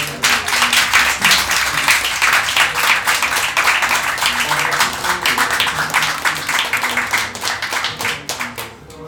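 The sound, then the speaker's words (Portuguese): Audience clapping for Casa Invisível, an anarchist squat hosting a family event, comes as brisk, crisp individual claps that merge into steady applause and thin out slightly toward the end. “Isso é uma salva de palmas pra Casa Invisível, por favor.”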